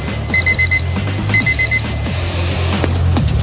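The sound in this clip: An alarm clock alert jingle, tested ahead of a football match, sounds as two short bursts of rapid, high-pitched electronic beeps over a low background hum.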